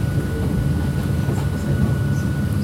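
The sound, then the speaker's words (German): Steady low rumble of a train running on the Hakone Tosan mountain railway, a continuous dense roar with no distinct clacks, holding an even loudness throughout without voices. “Also einfach nur Hakone Tosan Railway. Und man wechselt, ich glaube, 3 oder 4 Mal die Richtung.”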